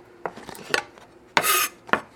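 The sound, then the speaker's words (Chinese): A knife chops scallions on a board: a few sharp, separate knocks, plus one short scraping sweep in the middle, with no talking. “然后我们顺便可以把葱切一下，”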